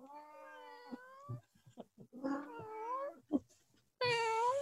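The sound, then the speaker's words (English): A cat meows several times, in drawn-out, wavering calls with short pauses between them. The meows are fairly loud and clear, and the last one is the strongest. “Come here, Shishi. See? Cat whisperer here. Shishi, are you hungry? Are you hungry, Shishi?”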